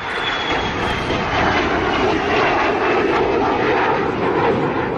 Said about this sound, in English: Now, the aircraft hasn't been seen much of lately, but don't worry, the Vampire will soon be back.